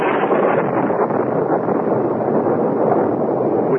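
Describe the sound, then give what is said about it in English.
A tropical storm roars at night as wind and huge waves lash the shore. The sound is a loud, dense, unbroken roar that holds steady throughout, with no separate wave crashes standing out. “a tropical storm broke, and huge waves lashed at the shore below us”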